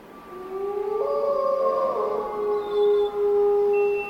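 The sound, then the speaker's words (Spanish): Several wolves howl together at night below a hillside, their long, sustained tones overlapping at different pitches and swelling into a steady, fairly loud chorus with no talking. “¡Lobos! ¡Mira allí abajo! ¡Son lobos!”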